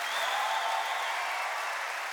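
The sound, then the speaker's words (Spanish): Applause from an auditorium audience on its feet, a dense, even wash of many hands clapping that holds steady without pause throughout. “todo el auditorio se puso de pie, aplaudiendo por su voz bellísima”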